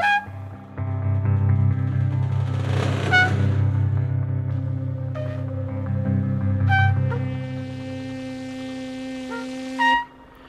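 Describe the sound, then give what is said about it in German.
A motorboat engine running on the Rhine as the boat speeds toward a lock: a steady, fairly loud droning hum with strong harmonics, holding even for many seconds, with a brief louder burst near the end. “Das Boot braust auf die Schleuse Richtung Rheinmündung zu.”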